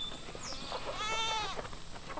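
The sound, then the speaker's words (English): A single goat bleats on a 25-acre farm in rural Milledgeville, Baldwin County, Georgia: one wavering, nasal cry lasting about half a second, rising out of a quiet outdoor background. “On a 25-acre farm in rural Milledgeville in Baldwin County, John Jackson looks through a gate separating him from his goats.”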